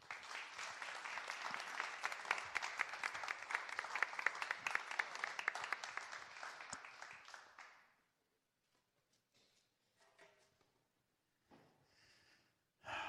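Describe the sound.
Audience applause welcomes Reverend David McArthur at a Unity church Sunday service: dense, steady clapping holds for about eight seconds, then stops into near silence with a few faint scattered sounds.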